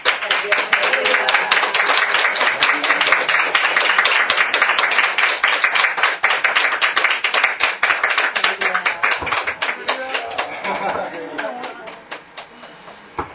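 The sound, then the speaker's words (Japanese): A church audience applauds after a baptism with brisk, dense clapping that stays strong for most of the stretch, then thins out and fades near the end. “では皆さん拍手をして、”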